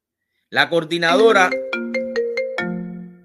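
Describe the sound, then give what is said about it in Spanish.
A phone ringtone for an incoming call plays a bright, electronic melody: a quick warbling phrase, then several clean, evenly spaced notes held at steady pitches. “no entiendo por qué me están llamando en este momento, cuando estoy hablando.”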